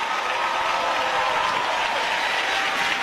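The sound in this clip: An audience applauds a gospel singer at a celebration of Black gospel music, a dense, even wash of clapping held steadily for the whole stretch with no voices on top.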